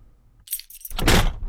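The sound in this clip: Car keys jangle in a short metallic jingle, followed after a brief pause by a longer, louder bright rattle.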